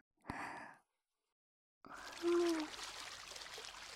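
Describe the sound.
Hot water is poured into a wooden washtub to wet someone's hair, a steady, splashing stream that starts partway in and runs to the end, after a short breathy sound and a moment of silence.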